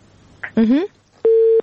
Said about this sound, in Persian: متاسفانه که تماس خواهر ما قطع شد و نمیفهم که چرا دوبیتی چی بود.